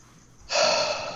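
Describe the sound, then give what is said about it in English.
A deep cleansing breath in the ocean air outdoors: one long, loud, airy rush of breath that starts abruptly midway and holds steady to the end after a quiet start. “That breath was a cleansing breath, I feel like.”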